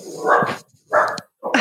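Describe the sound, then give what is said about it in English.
A dog barks three times in quick succession. The barks are loud, mid-pitched and somewhat drawn out, with short silent gaps between them. “That's my dog. Usually it's mine. Yeah, I'm sorry about that.”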